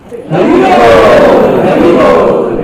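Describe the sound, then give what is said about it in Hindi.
A crowd loudly chants Haridhvani to welcome guests at a gathering. The voices surge in after a brief quiet start and hold as one sustained, massed roar to the end. “तो आप सभी का भी हम यहाँ पे स्वागत करना चाहेंगे जोर से हरिध्वनि से।”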